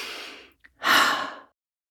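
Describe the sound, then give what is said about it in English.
A deep breath is taken, first a soft airy inhale, then after a short pause a louder, longer exhale that fades out to silence. “Let's take a breath in and out.”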